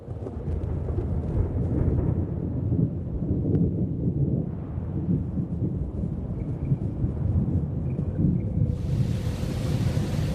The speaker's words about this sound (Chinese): 夏秋季节，亚热带海面狂风裹挟着巨浪，吞吐着一切。